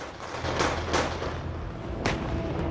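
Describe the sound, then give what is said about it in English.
Artillery fire during the ground offensive in northern Gaza: three sharp, booming blasts, two close together and one after a pause, cutting through a continuous heavy low rumble. “Artillery is fired and a building explodes and collapses.”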